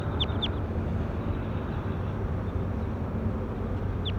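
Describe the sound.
A bird calls in a few brief, high, sweeping chirps: two close together at the start and one near the end, over a steady low background rumble.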